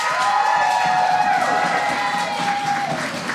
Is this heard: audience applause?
yes